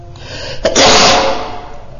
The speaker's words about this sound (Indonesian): Mohon maaf ya, bersin tadi.